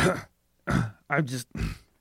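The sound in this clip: A person clears their throat in a few gruff, voiced bursts separated by short pauses, during a tabletop role-playing game.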